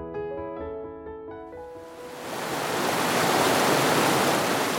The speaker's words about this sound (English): Let's take you back to the flood.